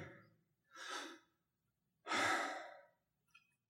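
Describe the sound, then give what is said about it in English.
A person breathes in and out slowly and quietly, two soft, airy breaths, the second louder and longer, then a faint brief trace. “The way to pronounce Yahweh is synonymous with the sound of breath. Listen to me.”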